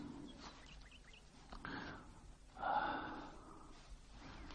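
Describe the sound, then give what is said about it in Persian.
A slow, deep breath of fresh morning air is drawn in and let out softly, faint and airy, with light bird chirps in the background. “نفس عمیق بکش، هوای لطیفیه.”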